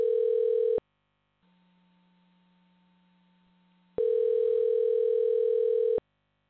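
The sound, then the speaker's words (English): Telephone tones sound while a call is being dialed: a loud, steady electronic tone cuts off, a quieter, lower hum follows, and then the loud tone returns for about two seconds. “I'm going to dial up Matt”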